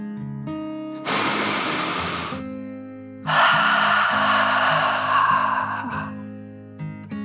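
A slow, deep breath in and then out during a relaxing children's meditation, two long soft airy rushes over gentle sustained musical tones.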